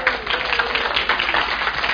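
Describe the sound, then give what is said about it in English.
Audience clapping at a fellowship gathering with a band, a steady patter of many hands at moderate volume, uneven bursts rippling through. “So give yourselves a good clap.”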